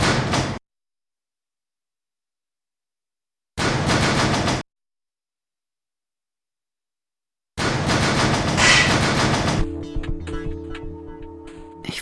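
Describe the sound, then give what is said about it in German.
A station train bound for Alexanderplatz pulls out after door noises: a few loud, broad noisy bursts separated by silence, then a steady layered electric hum and whine of the departing train. “Reisen in Richtung Alexanderplatz, fahren mit dem eingefahrenen Zug. Nach Alexanderplatz einsteigen. Zurückbleiben.”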